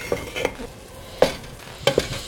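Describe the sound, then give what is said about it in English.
Tomato cooking down in a pan with herbs gives a soft, steady sizzle, broken by four light clinks of a utensil against the pan. “you can see the tomato is just kind of cooking down. I'm actually gonna add some herbs.”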